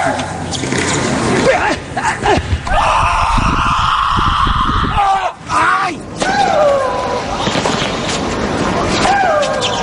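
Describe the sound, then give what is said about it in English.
Athletes grunt and yell with effort during sports, a run of loud, strained vocal bursts with groaning and screaming tones, coming in close succession with few pauses. “These grunts don't generate any extra strength or power. Vocalizing just helps athletes focus. And their vocalizations are a big part of the soundscape of sports.”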